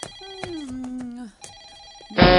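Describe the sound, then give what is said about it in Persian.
An electronic telephone ringtone sounds in the middle of the night, loud and repeating, with a sustained tone that glides slightly downward before the rings continue. “اون تلفن صاب مرده رو بردار. نصف شبی درنگ درونگش گرفته. الان که صبح نه خیر شبه روده. به جای اینکه با من دهن به دهن بذاری اون تلفن رو خفه کن.”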